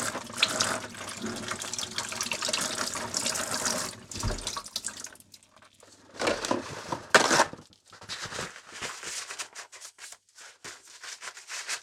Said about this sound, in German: Vielleicht noch einmal kurz über das Messer spülen.